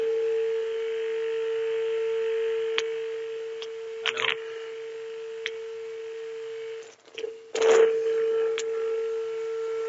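A telephone line tone after a call is cut off: one steady, unchanging pitch held throughout, fairly faint, broken by a few soft clicks and two short noisy bursts on the line.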